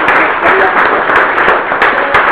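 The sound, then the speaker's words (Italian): Applause from an audience at a talk, honouring a doctor who has just spoken about alternatives to animal experiments: dense, steady clapping that stays loud throughout with no pauses. “Bene, facciamo un bel applauso alla dottoressa Antonella per prima.”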